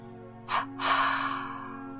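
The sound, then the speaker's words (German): Breath is released through the mouth in two bursts during a relaxation breathing exercise, a short airy puff followed by a longer, fuller exhale that slowly fades, over a faint steady low hum. “Dann atme auf zwei Stöße lösend wieder aus”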